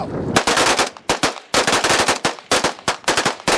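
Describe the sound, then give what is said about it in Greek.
Automatic gunfire from about fifteen rebels emptying their weapons in a salute for victims of fascism at a ceremony on Saur-Mogila hill in Donetsk, loud rapid bursts in several volleys separated by brief gaps, with no talk. “Περίπου 15 αντάρτες αδειάζουν μπροστά μας τα όπλα τους σε ένα χαιρετισμό για τα θύματα του φασισμού.”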